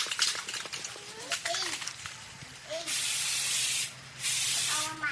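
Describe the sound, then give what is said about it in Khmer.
An aerosol can spraying black paint onto three poles hung on yellow string: two steady bursts of broad hiss, each about a second long with a brief gap, after a stretch of faint voices and light rustling. “អ្នកស្រីយកកំប៉ុងថ្នាំពណ៌ខ្មៅបាញ់ទៅលើដង3ដែលព្យួរជាមួយនឹងខ្សែពណ៌លឿង”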